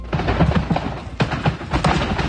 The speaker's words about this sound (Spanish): Aquest és el so de l'incendi, diverses explosions, i és que un d'ells duia esprais que van acabar explotant.